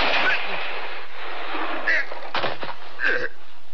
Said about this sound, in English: Hod? But I didn't draw. I shot him.